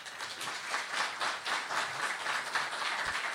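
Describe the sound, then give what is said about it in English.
Faint, steady audience applause welcomes two guests to a stage: a continuous wash of many hands clapping at an even level throughout. “Please give them a warm hand.”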